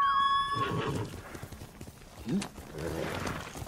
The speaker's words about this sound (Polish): konik, konik